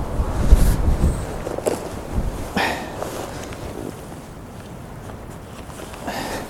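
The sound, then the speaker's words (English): Strong wind buffets the microphone at a cliff edge in low, rumbling gusts. A heavier burst comes early, then it settles into a steady roar with no talk. “I'm too close to the edge of this cliff. I'm not safe. Not with this wind.”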